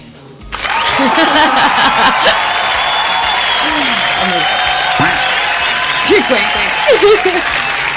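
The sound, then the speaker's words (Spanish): Applause from a crowd breaks in abruptly and continues steadily as a dense, loud wash of clapping, with a few voices and whoops cutting through. “¿Un aplauso? ¿Ah? ¿Con aplauso?”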